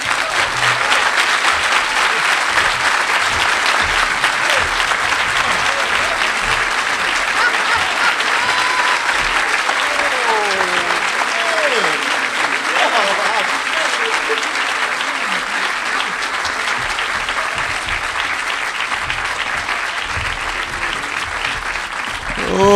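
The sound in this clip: Sustained audience applause welcoming Cornel West to the stage for his talk, dense, loud clapping that stays steady for about twenty seconds with little change.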